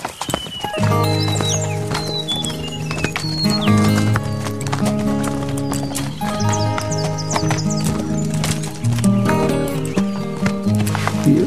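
Horses' hooves clip-clop steadily as a pack train walks down a winding packhorse trail on the Bogong High Plains. Many loud, continuous hoofbeats sound, and a horse whinnies at times.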